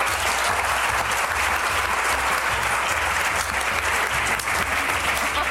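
Audience applause: dense, steady clapping that holds at an even loudness throughout, with the claps falling out of rhythm with one another.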